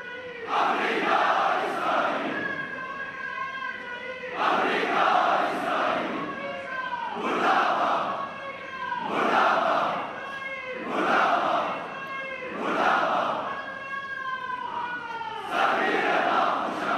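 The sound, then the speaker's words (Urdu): Protesters in the market streets of Kargil chant slogans against America and Israel: loud, rhythmic bursts of massed voices that repeat again and again, each phrase separated by a short pause. “لوگوں کی ایک بڑی جمعیت نے کرگل کے بازاروں میں امریکہ اور اسرائیل کے خلاف زبردست نعرہ بازی کرتے ہوئے اسرائیل امریکہ مردہ باد اور فلسطین کے حق میں زبردست نعرہ بازی کی۔”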